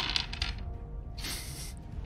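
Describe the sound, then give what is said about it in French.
Dice rolled during a tabletop role-playing game make faint clattering rattles in a few short bursts, with quieter gaps between them. “D'accord, lance les dés pour voir si ce plan fonctionne.”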